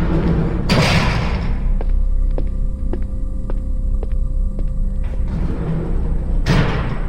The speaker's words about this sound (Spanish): cerrando puertas.